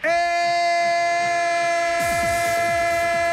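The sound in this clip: A train sound effect: a sustained, multi-tone horn chord sounds throughout, and partway through a rhythmic clatter of wheels over rail joints begins beneath it.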